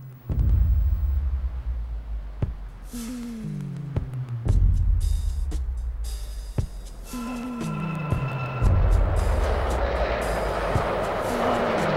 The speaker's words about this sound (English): he stands dejectedly alone on a subway platform as a graffiti-smeared train arrives.